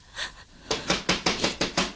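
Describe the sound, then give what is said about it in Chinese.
Urgent pounding on a door: one softer hit, then a rapid string of loud, sharp bangs in quick succession, with no voices. “不知道谁拍门拍得这么急呢？”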